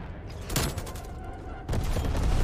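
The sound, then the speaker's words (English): Video game explosions from a napalm strike during a team deathmatch match: a sharp burst early on, then a loud, sustained booming rumble that takes over and continues to the end. “Sit rep, napalm strike inbound.”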